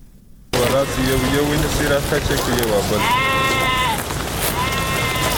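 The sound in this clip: Sheep bleating before being slaughtered for landi, a traditional Pashtun dried meat, in a village in the Pishin area: a few long, wavering bleats over steady background noise, the clearest near the end.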